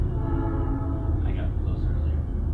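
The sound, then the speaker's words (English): A train passing by a house, loud enough to shake it, makes a heavy, continuous low rumble while a person talks over it. “Speaking of sound, here comes the train that we live by.”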